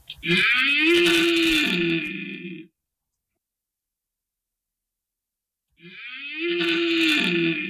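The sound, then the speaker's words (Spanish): Red deer stags bellow during the rut in the hills: two long, deep, harmonic roars, the first about two and a half seconds and the second about two seconds, separated by silence. “Pero estamos en plena época de berrea y quizás sea uno de los sonidos más sobrecogedores de lo que nos ofrecen nuestros montes.”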